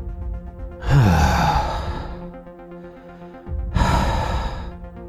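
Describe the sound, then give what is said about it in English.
A voice imitates the ghosts of men who died at the Fort Delaware prison camp sighing: two long, breathy sighs, the first sliding down in pitch, with a quieter pause between them. “They're just sighing.”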